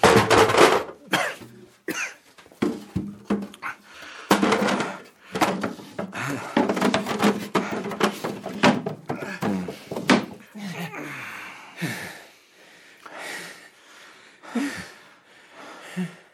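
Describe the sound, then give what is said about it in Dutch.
A heavy wooden cabinet is moved and set beside a desk. Many irregular wooden knocks, bumps and thuds sound over about sixteen seconds, some sharp and loud, others softer. “Pas op dat kastje. Als jij nou dat kastje eens naast mijn bureau zetten, Maar wees voorzichtig, want het is zwaar.”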